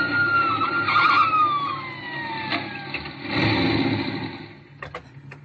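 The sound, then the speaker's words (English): A car motor that keeps overheating and stalling runs after being started, with a steady low rumble. High whining tones slide downward early on, the noise swells again midway, and a few sharp ticks come near the end. “Having trouble with my motor, officer. Keeps heating up on me and stalling. Well, you got it running now for if it's overheated. Just started it up.”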